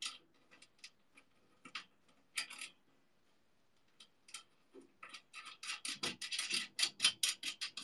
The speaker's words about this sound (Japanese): これをネジで止めると